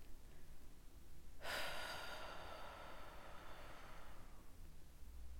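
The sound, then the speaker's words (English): One deep breath, a soft airy rush of air lasting a few seconds, faint and heard alone. “a nice big deep inhale for me. And a nice exhale for me.”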